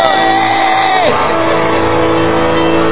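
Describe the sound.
A church audience shouts and cheers, with loud whoops and cries of praise rising together in a sustained, energetic burst.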